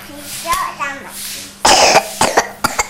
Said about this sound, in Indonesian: Batuk ya kamu. Dari kapan?